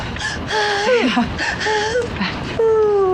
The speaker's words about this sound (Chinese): 不哭不哭，哎呀，别哭，哭啥呀？